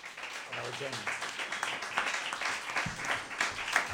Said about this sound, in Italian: Io sto scroccando gli applausi dell'attore, evidente. Sto prendendo io gli applausi che sono per l'attore.